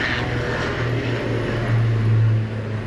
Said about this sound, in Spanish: El avión.